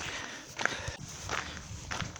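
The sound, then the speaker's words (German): Footsteps on the Camino de Santiago sound faint and steady, a few soft crunching steps in an even walking rhythm. “Das heißt, hier laufe ich jetzt schon wieder auf dem Jakobsweg.”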